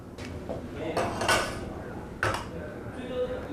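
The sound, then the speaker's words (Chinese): Clinks and scrapes as a handmade traditional Kazakh plate is handled. Two brighter clatters stand out amid soft rattling, with faint voices underneath. “这是我们哈萨克族的传统的这个艺术嘛，这个盘子。”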